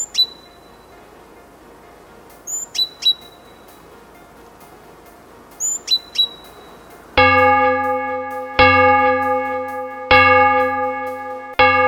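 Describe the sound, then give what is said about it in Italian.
Village church bells ring at six o'clock: after a few quiet bird chirps, four loud, evenly spaced bell strikes ring out, each with a rich, sustained tone that rings on until the next strike. “Le campane della chiesa del villaggio suonano le 6 e mi devo alzare”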